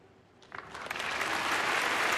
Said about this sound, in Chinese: 此处可以有掌声